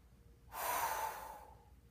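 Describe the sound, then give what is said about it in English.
A single forceful breathy exhale from a demonstration of Kapalabhati yoga breathing: a short, quiet rushing hiss that starts sharply and fades within about a second. “So the Kapalabhati or the Uddiyana looks and sounds like this.”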